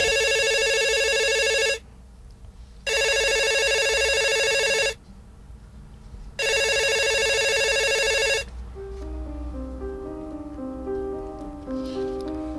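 A telephone rings three times, each loud, buzzing electronic bell burst lasting about two seconds with short pauses between, before soft music takes over.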